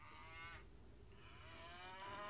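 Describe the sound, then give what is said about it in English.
An old cow bawls, two drawn-out, faint, harmonic moos separated by a short gap, with no voices. “Just one old cow left bawling.”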